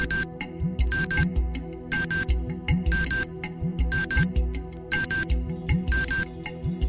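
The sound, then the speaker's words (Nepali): A table clock alarm rings in short, bright, buzzing bursts repeating about once a second, over a low, steady tonal background. “Table घडीमा alarm बज्यो”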